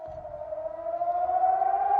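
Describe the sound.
Civil defence warning sirens sound in Bahrain, holding one sustained wailing tone. The pitch drifts slowly upward and the siren grows slightly louder, with a low rumble underneath.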